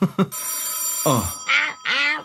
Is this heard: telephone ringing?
yes